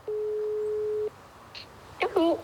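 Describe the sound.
Telephone ringback tone while a call is placed: one steady, mid-pitched beep lasting about a second, then a quiet pause before a voice speaks briefly.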